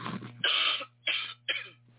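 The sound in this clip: Three coughs from someone under the weather with a tickle deep in the throat: short, raspy bursts, each one fading, separated by brief pauses over a low steady hum.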